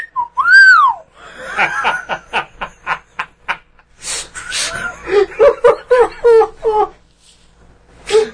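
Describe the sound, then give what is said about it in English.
A human voice imitates an astromech droid, opening with a long swooping whistle, then firing off many quick staccato beeps and later a run of warbling, chirping trills. “Now, what noise is your R2 unit making? It's sort of a...”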